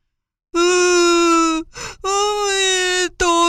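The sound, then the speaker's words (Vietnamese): A voice acts a crocodile character crying loudly, sobbing in long, loud, steady-pitched wails that are broken by a ragged, breathy intake of breath before the next wail begins. “Con vật khẽ chớp mắt mấy cái, rồi khóc bù lu bù loa.”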